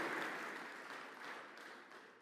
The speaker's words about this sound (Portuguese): Vamos aplaudir essa menina aqui, que ela é guerreira.